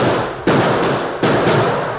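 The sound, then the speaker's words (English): Gunshots fired high into the air in a Western setting: two sharp, loud cracks less than a second apart, each trailing off in a long rumbling decay, with no voices. “I'll smoke out. Use your gun, Tonto, but aim high.”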